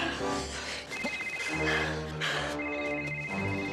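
A mobile phone rings outdoors on a hillside with a tonal, melodic ringtone that plays continuously and fairly loud for about four seconds, with no voices.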